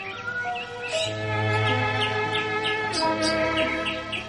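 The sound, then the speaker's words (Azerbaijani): A nightingale sings from a rose branch in a garden, giving quick, bright repeated chirps and trills that stand out over a steady, continuous background. “Bülbül gül budaqlarının birinə qonub, ən gözəl nəğməsini oxuyur”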